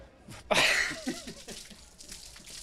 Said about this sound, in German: Also beim Interview eine Bierdusche habe ich tatsächlich noch nicht bekommen, das ist schon mal besonders.